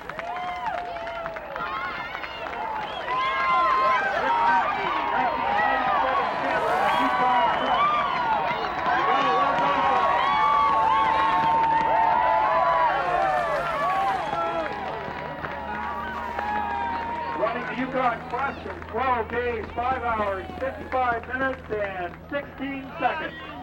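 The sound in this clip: A crowd cheers and shouts at the finish of the 1997 Yukon Quest as the winner from Nenana arrives. The dense, overlapping voices stay loud and continuous, with scattered clapping toward the end.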